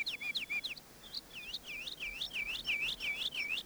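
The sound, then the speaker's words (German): Many birds chirp in the evening cool near a village, fields and the sea, with quick, high, repeated tweets in a busy run that thickens toward the end, faint over a soft hiss. “Was ist denn nur mit diesen Vögeln los? So viele.”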